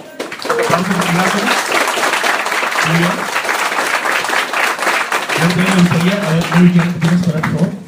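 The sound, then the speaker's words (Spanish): Audience applause at a comic-themed talk event: a dense, steady wash of clapping lasting the whole clip, with voices calling out over it. “Fuerte aplauso para Mary Jane”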